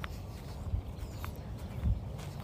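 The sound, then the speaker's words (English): Footsteps walking through a field: a couple of soft, dull thuds stand out over a low, continuous rustle, the second landing slightly heavier. “And now I shall finish the last minute of this recording as I walk through the field.”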